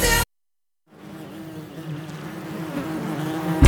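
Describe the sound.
Bees buzzing in a steady drone that starts after a short silence and swells gradually louder.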